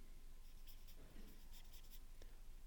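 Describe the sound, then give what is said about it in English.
Handwriting during a lecture: a faint scratching of strokes comes in a few short bursts over a low, steady hiss, with no talk. “I can't speak and write this at the same time”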